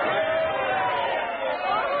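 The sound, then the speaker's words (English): Crowd chatter in a packed Springfield hotel lobby on election night: a dense, steady babble of many overlapping voices with no single voice standing out. “Did you ever see such a crowd in this lobby? All Springfield turned out. Please stop pushing.”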